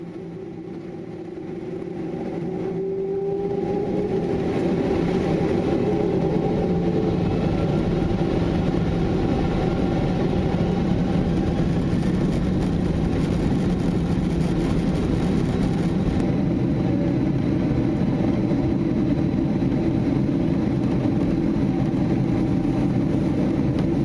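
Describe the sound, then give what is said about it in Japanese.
Airliner engines roar during takeoff, a low, broad drone that builds over the first few seconds, then holds loud and steady to the end. “We'll be taking off shortly. Please make sure your seatbelt is fastened.”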